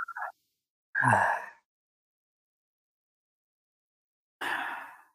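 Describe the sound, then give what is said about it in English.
Soft breaths drawn during a relaxation exercise with the jaw released; a few short airy breaths separated by long stretches of silence. “So then you release your jaw, especially. So you breathe in smoothly to the back.”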